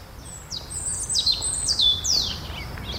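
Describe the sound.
A bird sings in the background with several thin, high-pitched chirps, each sliding quickly downward, spaced irregularly over a steady low rumbling background.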